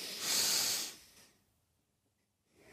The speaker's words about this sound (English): And you're going to breathe in deep, and those hands should be moving out laterally.